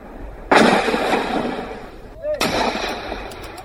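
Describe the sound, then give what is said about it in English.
Mortar fire from Kachin rebel soldiers aimed at a Myanmar troop position in northern Myanmar: two loud, sudden booming blasts about two seconds apart. Each one has a long, rumbling, noisy tail that slowly fades. “In video footage obtained by Irrawaddy News magazine, rebel soldiers attempted to fight back, firing mortars at the Myanmar troop position.”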